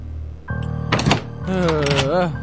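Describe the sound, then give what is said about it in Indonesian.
A door handle moves as a door is opened, a brief rattling clatter rising over a sustained low drone, followed by a voice speaking. “Gak lama gagang pintu bergerak, seperti ada yang buka.”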